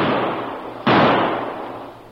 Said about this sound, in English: Each carried a sawed-off shotgun. As one pointed to a soft spot in the bank, the other aimed his weapon at it and fired.